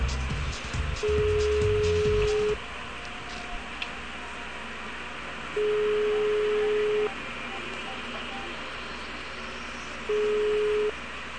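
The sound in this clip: Ringback tone of a telephone call being placed: three long, steady, evenly spaced rings at a moderate pitch, separated by quieter gaps over faint background noise.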